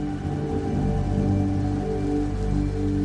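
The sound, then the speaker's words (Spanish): Steady rain falls during a storm, a dense, even hiss of drops on a surface that holds a constant level throughout. “Fúndete con ella, con la lluvia de fondo, con el sonido de la naturaleza,”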